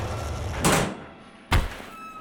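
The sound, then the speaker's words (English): A spaceship weapons hatch sliding open in a sci-fi scene: two broad, hissing mechanical whooshes, the second shorter and punchier, over a low background hum. “Well, stand back. The ground might be a little shaky while this hatch is opening.”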